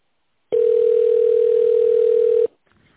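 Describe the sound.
A telephone line tone plays as a call is transferred to an operator: a single steady, mid-pitched electronic tone holds for about two seconds, then cuts off, leaving a faint hiss.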